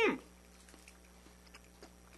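Soft, faint chewing on a loaded roast beef burger stacked with fillings and soaked in thick sauce: a brief louder bite at the start, then a few quiet, irregular wet clicks.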